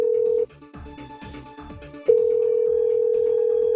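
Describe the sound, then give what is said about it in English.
Telephone tone on an outgoing call: a loud, steady electronic tone, broken by a quieter stretch of shifting lower tones, then the steady tone resumes until the end. “Okay, I don't think they're going to pick up. Oh, and then it went to a real ring, but I'm pretty sure that was just going to go to a voicemail.”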